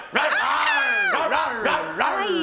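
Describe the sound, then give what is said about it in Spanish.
Dogs bark and yelp in a few loud bursts with whining, howl-like tones between them. The sound continues without break across the whole clip. “No, ladren, ladren. Lo más fuerte esto que pueda.”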